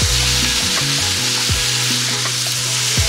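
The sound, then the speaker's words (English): Loud, steady sizzling of 500 grams of sliced mushrooms frying in a pan with leek and crushed garlic, a dense continuous hiss with no talk. “Pop those in there with the leek. I love the smell of garlic cooking. It's so amazing. Such a great smell. Now we're going to put in 500 grams of sliced mushrooms.”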